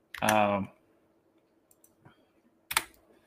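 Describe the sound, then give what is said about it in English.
A computer keyboard gives a few sparse key clicks and a louder clack. A brief voice sounds at the start. “Oops, I can't type. I'm just trying to bring it up so I can remember the games, the names.”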